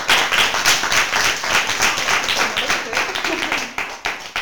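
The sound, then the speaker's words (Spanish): Audience applause at a farewell for a retiring community garden worker: dense, sustained clapping that runs steadily through the whole stretch. “un aplauso y agradecer a Gaby que haya estado con nosotros”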